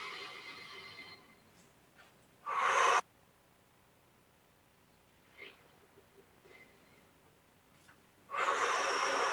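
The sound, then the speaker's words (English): Deep inhales drawn in through the nose during a guided breathing exercise: a few faint, airy, hissing breaths separated by long quiet pauses. “Inhale.”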